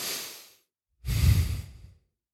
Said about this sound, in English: It's terrible for normal circumstances, but I'm intentionally making you listen to me breathe.